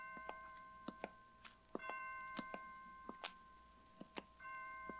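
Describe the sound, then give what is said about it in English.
Hospital clock chimes strike five o'clock, ringing a faint, steady series of clear bell-like tones with ringing overtones, each note sounding distinctly over a low background hum. “Well, 5 o'clock. I didn't know the hospital had chimes.”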